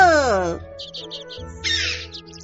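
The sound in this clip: A human voice imitates a crow's caw with one harsh, drawn-out call that slides downward in pitch. Softer, quieter sounds follow after it.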